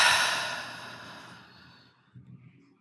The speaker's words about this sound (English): just taking one conscious breath, breathing in through the nose and out through the mouth.